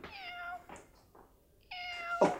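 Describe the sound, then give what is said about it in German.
A tomcat meows twice, quiet, drawn-out and slightly wavering calls, with a few softer short noises between them. “was ist denn das? Keine Bange, ist nur unser Kater.”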